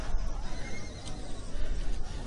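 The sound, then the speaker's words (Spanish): Horse hooves pound the ground in a heavy, low, continuous rumble that drums steadily for a couple of seconds, fairly faint overall with no distinct separate strikes. “Acerca tu oído a la tierra. Ella tiembla con los cascos del caballo de Ashtar.”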